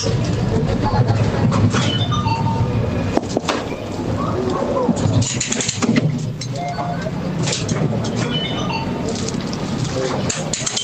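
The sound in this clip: Busy train station ambience with suitcases, ticket gates and their beeps: a steady, loud rumble carries a few short electronic beeps and faint background voices throughout.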